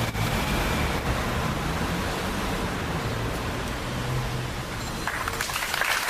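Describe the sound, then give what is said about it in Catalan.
Sustained applause from a crowd outside Gandesa town hall after a minute of silence for a nine-year-old girl who died. The clapping is a steady, dense patter that holds at an even level throughout. “Aplaudiments després del minut de silenci davant l'Ajuntament de Gandesa per la nena de 9 anys que ha perdut la vida a la Fontcalda”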